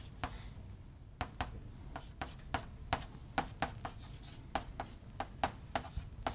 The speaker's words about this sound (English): Yeah, I can write the acceleration each in kind of component wise as well in each direction. So I could write this.